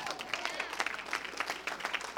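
Faint, scattered clapping from an audience during a sermon: quick irregular claps at low volume over a steady background hum.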